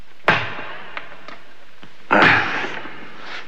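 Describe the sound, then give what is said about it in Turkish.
A pickaxe striking while digging for treasure: two heavy, sharp impacts with short ringing decays, separated by a couple of fainter knocks. “Öyleyse vur kazmayı.”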